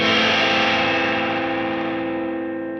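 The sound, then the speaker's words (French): Electric guitar through a small overdrive pedal, its output and mix turned slightly down, for a surf-style tone: one distorted chord rings out and slowly fades over about three seconds. “Alors, je baisse un petit peu le out et le mix pour pas me faire avoir. Et j'enclenche à nouveau cette petite overdrive.”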